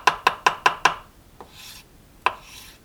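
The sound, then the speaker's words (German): Knife chopping basil finely on a cutting board: five quick, evenly spaced sharp chops, then a faint softer tap and, after a short pause, one more crisp chop, with light scraping sounds between them. “Das Basilikum muss man klein schneiden.”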